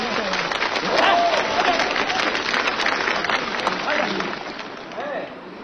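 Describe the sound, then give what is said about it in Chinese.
Audience applause at a stage performance: a dense, steady wash of clapping hands, loud and sustained throughout, dipping slightly near the end. “各位朋友掌声欢送我一下”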